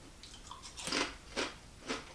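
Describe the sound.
Crunching bites of cheddar and bacon potato chips made from potato flakes: a few crisp, crackly chews, the three loudest coming in a steady rhythm, with no talk.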